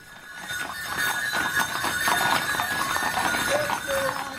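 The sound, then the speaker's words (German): Clip-clop of hooves from a horse-drawn carriage bringing a bridal couple to a church wedding held after Croatian custom in Bad Aussee; steady hoofbeats run through the whole stretch over a constant background wash. “da kommt die Kutsche mit dem Brautpaar.”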